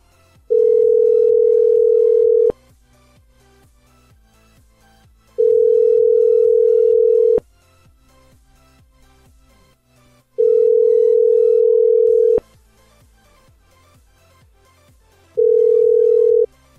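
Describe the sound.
Telephone ringing tone on an outgoing call: four long, steady mid-pitched tones of about two seconds each, separated by roughly three-second silences, with no voices.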